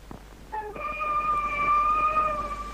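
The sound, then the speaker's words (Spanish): Police patrol car siren, a steady, sustained tonal wail with strong harmonics that starts after about half a second and slowly swells louder, wavering slightly in pitch. “Ahí viene el patrullero.”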